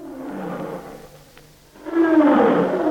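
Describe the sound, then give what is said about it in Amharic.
A young lion roars in a vineyard near Timnah, in two deep, rough bursts with a short lull between them. The second roar is louder and fuller than the first. “ከዕለታት አንድ ቀን ሳምሶን ከአባቱና ከእናቱ ጋር ወደ ቲምና ወረደ። እዚያም በወይን ተክል ውስጥ አልፈው ሲሄዱ አንድ ደቦል አንበሳ እያገሳ መጣበት።”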